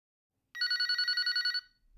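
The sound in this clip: A telephone bell rings in one bright, rapidly trilling burst lasting about a second after silence, then stops, followed by a faint low rumble.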